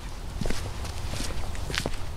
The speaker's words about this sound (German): Gehen wir mal zusammen durch den Garten? Ja, können wir gerne machen.